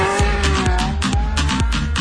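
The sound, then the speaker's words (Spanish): Car engine roar from an arcade car-racing video game, a loud, continuous drone with a steady rhythmic pulsing throughout and no talk. “la primera, un clásico de las carreras de coches, se llama Asphalt 8 Airborne.”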